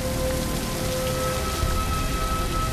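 Rain falling outdoors: a steady, soft hiss of drops that stays even throughout, fairly quiet and with no distinct separate impacts.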